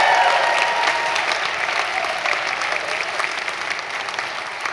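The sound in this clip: Warm applause greets visiting high school seniors touring Hope College during a campus gathering. The clapping is loud and dense at first, then tapers gradually.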